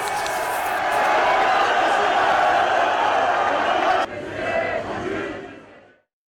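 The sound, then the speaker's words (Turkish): Fenerbahçe fans chant loudly as a crowd at Istanbul Airport to greet a young attacking player. Their dense, roaring chant holds steady, drops abruptly, then fades out to silence. “24 yaşındaki hücum oyuncusu sarı lacivertli taraftarlar tarafından meşaleler ve coşkulu tezahüratlarla karşılandı.”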